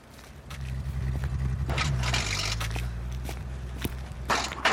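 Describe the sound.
A woman's quick footsteps: a brisk run of light steps over a continuous low rumble, fairly soft and steady throughout.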